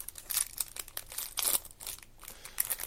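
Crinkling and tearing of a trading-card pack's wrapper as it is opened, an uneven run of crisp rustles and crackles with a few louder bursts, no voices.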